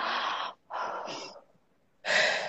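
Three airy breaths, in and out, heard alone. Each is a soft rushing hiss, separated by short silences, with a longer pause before the last, fairly strong one.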